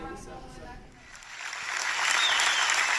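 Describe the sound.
Audience applause at MedStar National Rehab's annual gala as a rehab patient walks across the stage to accept an award. The clapping begins quietly after a voice at the start, then swells into a loud, sustained wash.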